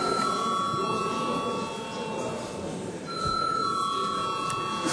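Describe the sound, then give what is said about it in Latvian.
Parliament chamber bell rung before a vote, a steady electronic ringing tone over a background hum, dipping briefly in the middle and then resuming for the rest of the five seconds. “Paldies, lūdzu zvanu.”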